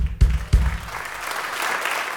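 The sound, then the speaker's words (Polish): Applause with two heavy thuds at the start, then clapping that swells into a steady, dense patter and holds until the end. “Dlatego też wielkie brawa dla tego człowieka.”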